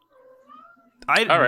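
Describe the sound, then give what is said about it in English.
A hungry cat lets out one loud, drawn-out meow that rises then falls slightly, preceded by a faint, soft tonal hum. “I hear a hungry kitty in the back somewhere.”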